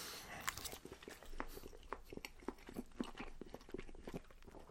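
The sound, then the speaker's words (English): Chewing beef and Yorkshire pudding: many soft, wet, crunchy bites and jaw movements in an uneven rhythm, fairly faint, with no talk over them. “I'll try it just with some Yorkshire pudding. Just with some Yorkshire pudding I did. Oh yes. Oh, that's lovely. That really hits the spot.”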